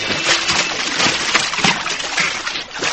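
Water churns and splashes as a person is pushed in over a rail. The loud, continuous wash carries on without clear breaks.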